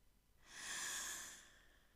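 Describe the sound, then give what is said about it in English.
Soft breathing while swimming in water: one faint, airy breath swells and fades away. “my own breath. Inhale. Exhale.”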